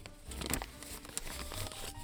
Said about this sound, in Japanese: 今回ガサガサしていたレシートはですね、